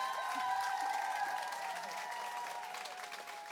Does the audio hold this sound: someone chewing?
no